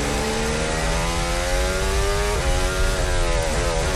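A Formula 1 car on throttle during third practice at the 2026 Barcelona Grand Prix. The loud, high-pitched engine note climbs steadily, with a couple of brief gear-change dips, and runs continuously throughout.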